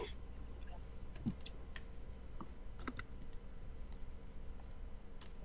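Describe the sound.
Faint, sharp clicks from a computer mouse or keyboard as a link is clicked. A few brief clicks stand out over a steady low background hum.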